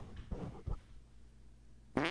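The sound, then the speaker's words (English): A short, loud fart bursts out near the end, after a stretch of quieter, muffled noises. “I think I got a fart. Do it. That's a burp. Fart for me.”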